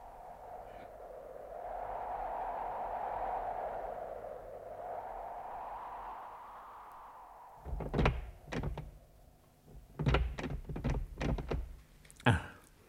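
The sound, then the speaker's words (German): A locked temple door being tried: after several seconds of low, steady background hum come a series of sharp thuds and rattles, in irregular clusters that grow busier toward the end. “Ich dachte, wir könnten in diesem Tempel Schutz finden. Aber die Tür ist verschlossen.”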